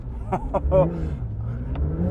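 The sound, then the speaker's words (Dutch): A Porsche engine is held on steady throttle while driving over a sand dune, giving a continuous low rumble with a slight rise in revs. A brief voice murmurs over it. “Dan moet ik hier een beetje gas houden.”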